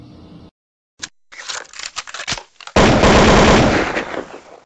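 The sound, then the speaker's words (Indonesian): Gunfire sound effect of rapid automatic bursts: a short burst, then a dense rattle of shots, then a loud sustained barrage that runs to the end. “Ini tembak senjata cuy.”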